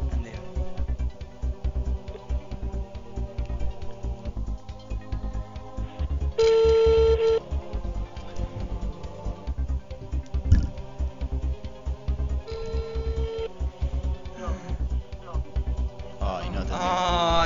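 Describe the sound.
A phone call is dialed on speakerphone during a TV quiz show's phone-a-friend lifeline. A couple of steady electronic dialing tones stand out amid ongoing talk and busy background noise.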